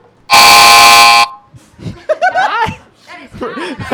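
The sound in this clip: A single loud, steady air horn blast used as a game buzzer, held for about a second, followed by people talking and laughing.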